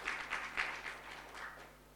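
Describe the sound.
A church audience clapping hands during a sermon, a quick uneven burst of claps that starts fairly firm and thins out into softer, scattered patter, faint overall with a low steady hum beneath.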